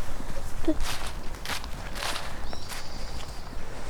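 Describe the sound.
Footsteps walking uphill on a forest trail of dark earth and moss, a few soft scuffing steps spaced irregularly over a constant rustling background.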